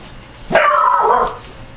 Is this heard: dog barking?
yes